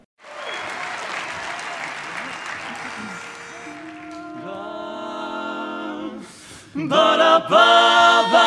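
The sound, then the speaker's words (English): Audience applause at a live performance at the 2016 Midwinter Convention rolls as a steady wash of clapping for several seconds, then fades as music begins and builds louder. “so they're from performances either from 2015 or from this year, so that's why you hear the audience reaction.”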